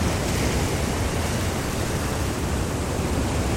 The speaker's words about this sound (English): And the sea really is sort of swirling around here now. It's quite safe in this bit, because there's a sort of half circle of rocks which breaks the,